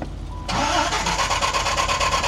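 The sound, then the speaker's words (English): A Dodge Viper sports car engine starting: after a quiet moment it catches at once with an abrupt burst, then settles into a loud, steady idle with a fast, even pulsing rhythm. “Yeah, let's do the Viper. Let's see if... We don't have enough people to rev them, so we're just going to have to idle them. If it cranks up any easier... I bet you it'll start up right away.”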